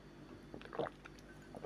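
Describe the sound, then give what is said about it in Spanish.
A speaker takes a little water: faint liquid sloshing and a couple of soft swallowing gulps over a quiet, steady background. “si me permiten, voy a beber un poquito de agua,”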